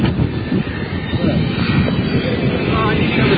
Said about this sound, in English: That's the sound of a jet.